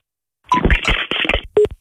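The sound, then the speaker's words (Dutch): Telephone line tones follow a caller hanging up: a short higher beep and a later lower beep amid crackly, garbled line noise. “Heeft hij nou opgehangen? Ja, hij heeft opgehangen.”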